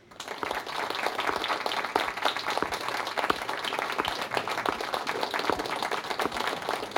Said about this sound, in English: So without further ado, let's welcome Professor Rowena Pearson.